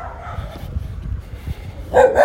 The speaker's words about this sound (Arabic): هسه شوي وخرنا من الكلاب. هاي شنو هاي كلبي مشلوب.